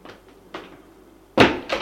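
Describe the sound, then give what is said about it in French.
A door is closed with a few dull knocks and thumps. The loudest impact comes near the end, followed by a softer one. “Elle ferme la porte.”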